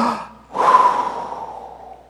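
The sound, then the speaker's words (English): A deep breath is heard alone, built around a long, loud, breathy exhale that swells quickly and then slowly fades away, with no talking. “when you stub your toe, take deep breaths.”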